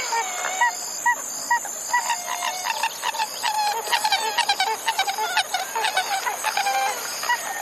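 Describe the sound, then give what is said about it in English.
Pied-billed grebe calling with a long series of hollow, honking notes, sparse at first, then crowding into a faster, denser run, over a thin, steady high whine. “A a pied-billed grebe.”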